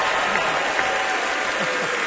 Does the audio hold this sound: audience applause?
yes